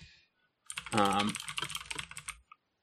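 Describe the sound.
Typing on a computer keyboard to look something up: a short, quick flurry of clicking keystrokes lasting under two seconds, fairly faint, with a single stray click just after it stops.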